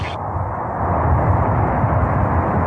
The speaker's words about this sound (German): We have a go for engine start. We have main engine start.